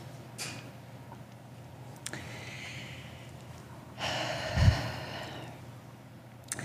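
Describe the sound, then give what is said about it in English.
Soft deep breaths from people at a Sunday morning community gathering. A faint breathy rush swells around the middle, with quiet, airy stretches and a few small ticks around it. “Let's all take a deep breath and know that we are enough.”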